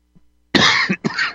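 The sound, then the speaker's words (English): A person choking mid-speech breaks into a coughing fit: two harsh, loud coughs in quick succession, the second slightly shorter, after a faint throat sound. “Excuse me. Sorry about that. You start choking.”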